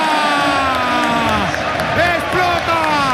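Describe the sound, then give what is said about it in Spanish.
Stadium crowd roaring at Camp Nou as Barcelona clinch the league title in a clásico, a loud, dense roar with shouting and whistling voices that swells and wavers throughout. “¡Explota el Camp Nou! ¡Bailan los jugadores del Barcelona!”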